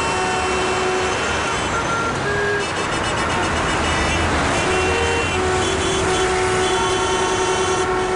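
City traffic in Toledo in summer, with vehicles passing through the streets: a continuous, loud rumble of engines and road noise, with a few steady tonal whines sitting on top throughout.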